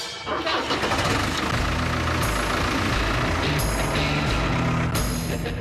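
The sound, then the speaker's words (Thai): A tractor engine starting as the driver sets out to feed birds on a farm, settling into a loud, steady rumbling roar with rattling harmonics. Its level stays nearly constant throughout. “เอาล่ะผมกำลังขับรถแทรกเตอร์แล้วกำลังจะออกไปให้อาหารนกนะครับเพิ่มสารอาหารให้มันหน่อย สิ่งที่คุณต้องทำก็แค่เปิดเครื่อง”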